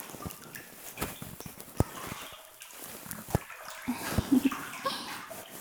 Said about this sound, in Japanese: 肩にもお湯かけてあげます。